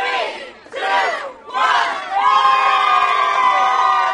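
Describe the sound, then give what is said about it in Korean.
A Black Friday crowd lined up outside a store at dawn shouts in a few short bursts and then breaks into loud, sustained cheering as the doors open. “블랙 프라이데이 당일 새벽 문 앞에 길게 줄을 서 있는 사람들이 이 상점이 문을 여는 시간을 기다리며 5, 4, 3, 2, 1 함께 세고는 이 상점 문이 열리자마자 환호성을 지르며 가게 안으로”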